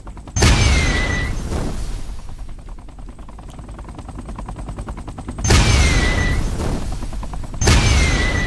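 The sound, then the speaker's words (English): Rocket launches in a video game: three loud, sharp blasts, each carrying a whistling streak. The first trails into a long roar, and a steady buzzing drone fills the gaps between shots. “Now, the rockets, you can fire at things and they will take them out.”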